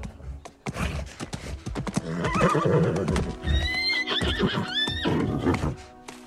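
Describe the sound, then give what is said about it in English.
A mustang trotting in a circle, its hoofbeats mixed with several loud, high whinnies in the middle of the passage over a dense, full background. “As she turns, the Mustang trots in a circle.”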